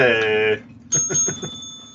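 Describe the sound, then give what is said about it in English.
A bell is rung among friends drinking beer. Its bright, high tone rings out sharply and lingers after a voice, with voices continuing over the fading ring. “Yay, ring the bell.”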